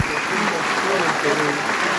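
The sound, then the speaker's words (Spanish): Applause in parliament for President Keiko Fujimori: steady, sustained clapping from many hands, with a voice speaking over it. “Pese a ello, los aplausos continúan para la presidenta Keiko Fujimori”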